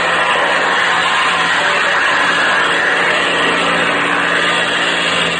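Airplane engine opened up to full throttle for a climb: a loud, steady, unbroken roar that holds at the same level throughout, with no voices.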